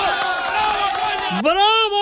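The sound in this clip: Crowd cheering and shouting at a rally, a loud mass of voices with one strong shout rising sharply near the end.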